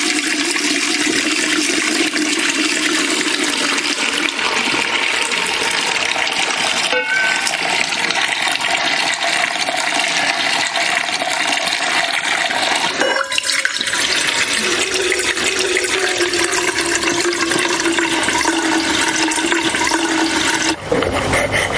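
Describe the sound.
Water poured from a saucepan over a person's soapy hair at a bathroom sink, a steady, continuous rush and splash of running water that lasts the whole clip, with no voices.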